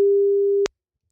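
A telephone line tone heard while placing a call: one steady, even beep held for just over half a second, then cut off with a click, followed by silence.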